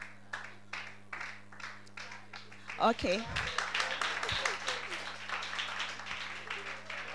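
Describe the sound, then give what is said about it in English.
An audience claps as an offering at a New Year's Eve watch night church service: spaced, rhythmic claps build into steady, dense applause, and a voice briefly calls out partway through. “Auntie Tina, please, with a clap offering, shall we invite her as she testifies?”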